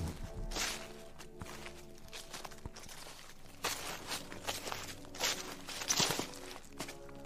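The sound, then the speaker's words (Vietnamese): Faint footsteps crunching and rustling on dry leaves while walking deep into a deserted mountain area, many irregular steps with soft crackly bursts. “Càng đi, tiếng lá khô ở dưới chân cứ lạo xào, làm cho tôi bắt đầu cảm giác sợ hãi.”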